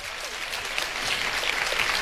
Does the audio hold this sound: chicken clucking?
no